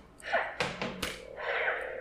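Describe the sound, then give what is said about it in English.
A toy dueling lightsaber clashes, giving a few quick, knocking bursts of crunchy noise followed by a short hissing buzz, all fairly faint. “it's a dueling lightsaber, so you can bang, but it's delayed.”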